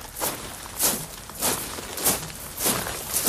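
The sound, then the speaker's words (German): Marching footsteps crunch out six steady, evenly spaced steps, each a short bright scuff at a measured pace. “Versuchen wir es nochmal. Es wird marschiert. Es läuft. Ich höre es.”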